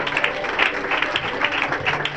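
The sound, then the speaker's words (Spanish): Applause from a church audience during an evening service: steady, moderately loud clapping from many hands, dense and continuous with slight swells, no voices standing out. “Bien bonito ese aplauso.”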